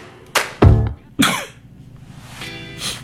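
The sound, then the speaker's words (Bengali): A person coughs deliberately: a few sharp, rough coughs in quick succession, followed by quieter throat and breath sounds. “আমরা একটু কেশে দিই। আমরা একটু কেশে তারপরে কি করি?”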